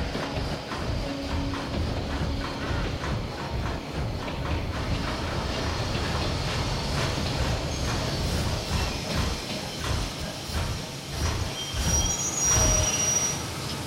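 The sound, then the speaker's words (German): An express train pulling into a terminal station gives off a steady, loud rumbling and rattling of wheels and cars, with a thin, high squeal briefly rising near the end. “Der Carvendel Express fährt ein.”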